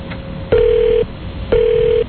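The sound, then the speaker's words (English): Telephone ringback tone on an outgoing call: two identical, steady buzzing tones of about half a second each, separated by short pauses, loud and clear with no voices. “We'll call Rose.”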